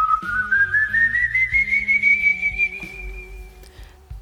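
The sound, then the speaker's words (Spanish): An eerie, inhuman-sounding whistle in a zombie horror tale: one sustained, clear tone that slowly climbs in pitch over about three seconds, with low pulsing sounds underneath. “Entonces lo oye. Un silbido. Un ruido que no parece humano.”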